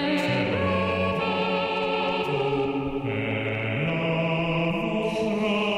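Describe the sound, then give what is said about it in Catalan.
Synthesized operatic singing from Google's Blob Opera, several blended voices holding sustained chords that step between pitches, steady and loud without pauses. “Tot és un experiment creat per Google, l'anomenat Blob Opera, que és l'últim joc d'una aplicació de Google que es diu Arts and Culture.”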